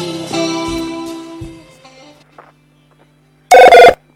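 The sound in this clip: A radio station telephone rings in a short, loud double burst near the end, after an earlier stretch of tonal sound fades into near silence.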